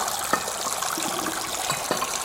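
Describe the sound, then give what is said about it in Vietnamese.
Water rushing into an old wash basin with separate hot and cold taps at Lemp Mansion after a button is pressed, a steady hiss of flowing water with a few soft knocks. “bạn nhấn một cái gì đó đó, mình không rõ, thì nước nó sẽ đầy. Và bạn dùng nước này, nước rửa mặt, rồi bạn rút cái này bằng xả đi.”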